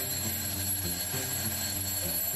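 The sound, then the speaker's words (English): An alarm clock ringing on its own: a steady, bright metallic ring with a pulsing, buzzy low undertone. It holds at an even, fairly loud level throughout without a break. “once the alarm clock entered the household with sounds like this, and this,”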